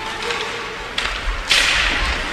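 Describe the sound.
Sharp cracks of an ice hockey shot taken right off a faceoff and saved by the goaltender. A couple of crisp smacks ring out over steady arena background noise.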